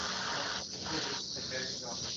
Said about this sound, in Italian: Ok, c'è qualcuno che deve staccare un microfono, non so chi sia, qualcuno che si sta soffiando il naso sul microfono in questo momento dovrebbe staccarlo